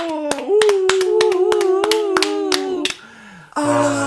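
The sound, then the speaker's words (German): Applause at the end of a song: a string of sharp, evenly spaced hand claps from a few hands, with a drawn-out vocal tone beneath, then a brief pause and a different voice. “Und dann ist das Lied zu Ende. Und du hörst den Applaus.”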